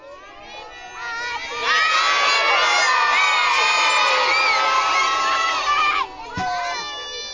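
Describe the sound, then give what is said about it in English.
Students from three schools cheering at the Anchor River State Recreation Area as Alaska Department of Fish and Game staff fertilize salmon eggs. High, shrill children's shouts swell suddenly, hold loudly for several seconds, then cut off sharply. “Students from three different schools cheered as Alaska Department of Fish and Game staff fertilized salmon eggs during an egg take presentation at the Anchor River State Recreation Area on Tuesday morning.”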